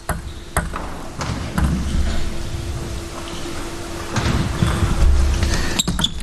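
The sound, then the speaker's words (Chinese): Table tennis play in which a serve clips the net: a few sharp, bright ball ticks stand out against a soft, hissy background, with light crackling between them. “换了一个逆侧，但是发球擦网。”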